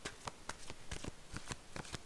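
Cards from an enchanted map deck are handled and shuffled, giving many quick, faint papery snaps and riffles in an uneven rhythm.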